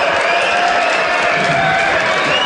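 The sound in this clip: Cricket crowd cheering as Australia bring on Travis Head to bowl, a steady, loud roar that holds at an even level throughout.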